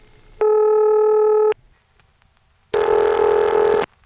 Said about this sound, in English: That's St. Thomas ring.